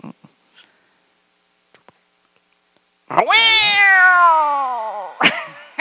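A cat gives one long, loud meow whose pitch slides downward, then a brief second cry. A few faint clicks come before it in near silence.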